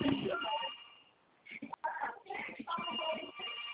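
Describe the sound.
A phone rings with an incoming call. A tonal ringtone repeats in short bursts while voices talk over it.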